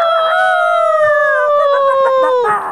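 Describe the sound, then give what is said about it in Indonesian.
A voice imitates a rooster's crow in one long, loud, drawn-out call that holds steady, then dips in pitch near the end. “Eh, ada ayamnya datang ke sini.”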